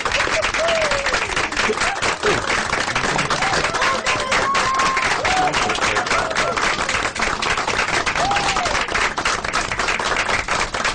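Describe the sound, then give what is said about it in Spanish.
Applause sound effect of a crowd clapping: dense, steady, loud clapping that continues unbroken from start to end. “ponme un aplauso aquí.”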